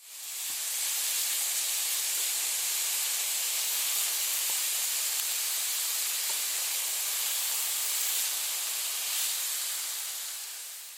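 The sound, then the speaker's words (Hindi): Triangular samosas of rolled dough with filling, frying with a steady, dense sizzling hiss that stays even and loud throughout, with no voices. “अब और करते हैं जी इसको fry.”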